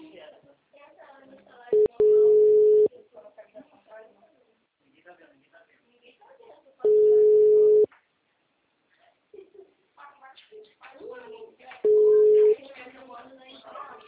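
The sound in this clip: Telephone tones after a dropped call: three steady, low-pitched beeps, each about a second long and several seconds apart, with people talking quietly between them.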